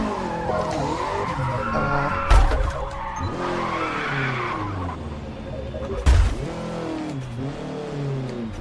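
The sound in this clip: A car spinning out in a racing video game: tires skid and squeal over a revving engine whose pitch swoops up and down, with two heavy thumps.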